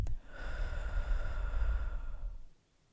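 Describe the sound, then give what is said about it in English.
A long, deep breath is taken during a guided breathing exercise. A brief click comes first, then a soft, breathy rush lasts about two seconds before fading into quiet. “I just want you to take another deep breath in and just hold it and out.”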